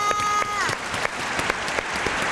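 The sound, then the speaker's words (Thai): Audience applause during a children's word-spelling game show, bursting up for a contestant who spelled six words: a dense, steady clatter of many hands with a few sharper claps poking through, holding at an even loudness throughout. “ปรบมือให้น้องวีหน่อยค่ะ”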